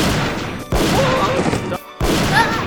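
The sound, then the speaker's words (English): Loud, dense gunfire erupts in an audio drama shootout, a continuous volley of overlapping shots broken by two brief pauses before the firing resumes. “Stop shooting everyone!”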